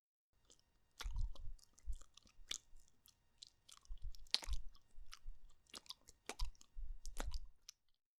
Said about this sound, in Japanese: ディープキスも、しよう。